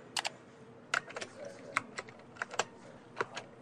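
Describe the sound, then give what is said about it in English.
A password being typed on a computer keyboard: many light, irregular keystrokes, some in quick pairs and others spaced apart, all fairly faint. “I'm trying to key it in, but it doesn't work. That's because the password is in lowercase letters. Don't use uppercase letters.”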